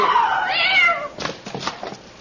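A cat meows loudly in a long, wavering cry, followed by a few shorter, broken mews, with no talk over it.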